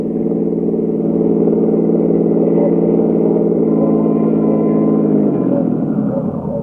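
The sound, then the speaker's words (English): A car drives with a steady, mid-pitched engine drone that holds an even loudness throughout, and the engine note eases slightly lower near the end. “I drove over to 1132nd Avenue, Jerry's Laundrette, from where the search would commence.”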